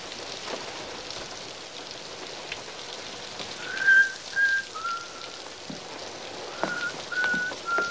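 Steady rain falls outside in a constant soft hiss, while a man whistles a few clear high notes over it in two short phrases.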